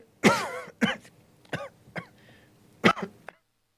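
A person coughing and clearing their throat: five short, harsh, separate bursts spread over a few seconds, fairly quiet and with no talk, then silence.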